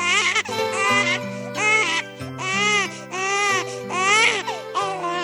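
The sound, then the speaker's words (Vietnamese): A baby crying in a series of loud, repeated wails broken by short gaps, over a soft, steady musical backing. “Con khóc”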